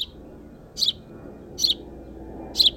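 Birds chirping from a nest near the room: three short bursts of high, bright chirps spaced about a second apart, each standing out clearly over a low, steady background hum.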